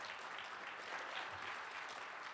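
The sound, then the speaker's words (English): Audience applause for the panelists at a panel event, a steady, dense wash of clapping hands that holds evenly throughout without pause. “So let's give a claps for our panelists here today.”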